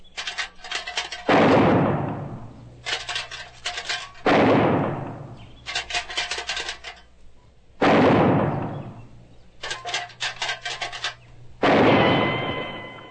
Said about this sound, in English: You gotta learn how to shoot first. Now, I'm gonna rattle a can.